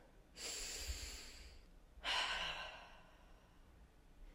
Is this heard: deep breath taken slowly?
yes

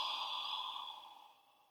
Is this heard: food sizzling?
no

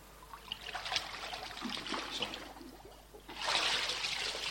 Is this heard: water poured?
yes

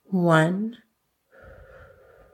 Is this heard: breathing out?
yes

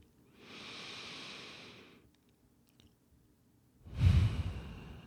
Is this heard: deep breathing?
yes

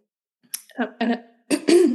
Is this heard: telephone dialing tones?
no

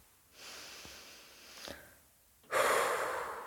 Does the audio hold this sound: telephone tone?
no

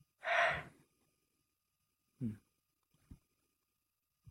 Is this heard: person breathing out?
yes

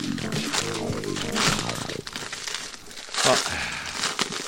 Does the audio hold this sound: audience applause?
no

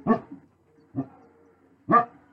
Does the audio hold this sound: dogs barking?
yes

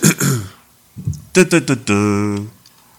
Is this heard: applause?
no

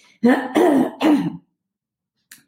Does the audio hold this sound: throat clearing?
yes

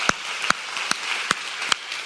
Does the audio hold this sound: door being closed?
no

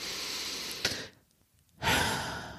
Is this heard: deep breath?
yes

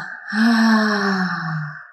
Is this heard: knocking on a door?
no

